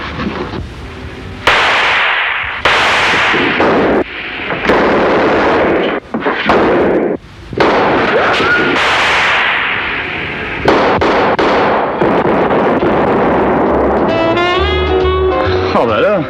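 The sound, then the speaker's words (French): Cannon fire booms in a dense, loud barrage, with heavy blasts and sharp breaks between bursts and a wavering tone rising out of the din near the end. “Mais t'as tiré au canon maintenant?”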